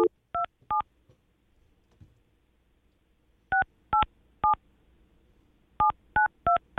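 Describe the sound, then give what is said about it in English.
Telephone keypad tones as a number is dialed: short, clean electronic beeps in three separate groups of a few presses each, with near silence between groups. “Let's just call Haley one more time, and then we're out of here.”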